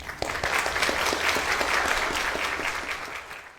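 An audience at St. Paul's church applauds to welcome a visiting clergywoman during worship, with crisp, dense clapping that rises quickly, stays even and then thins slightly at the end, and no voices.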